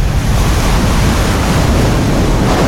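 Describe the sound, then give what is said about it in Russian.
Rushing river water floods a metro tunnel after its roof collapses, a loud, unbroken roar of churning water, dense and steady throughout, with no voices. “Бурлящая стена воды мчится по тоннелю, заполняя его почти до самого свода.”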